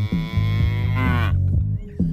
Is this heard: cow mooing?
yes